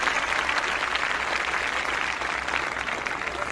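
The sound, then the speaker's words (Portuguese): Audience clapping for a birthday celebrant right after the birthday song, a steady, even wash of applause that holds at a constant level with no break. “Muito bem, o aplausos para o Zé, aniversariante do dia, vamos lá.”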